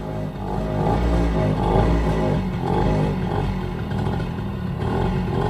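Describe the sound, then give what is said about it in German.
A motorcycle engine rumbles in a steady low drone that gently swells and eases. No voices are heard. “Also, zuerst das Moped. Jetzt das Motorrad.”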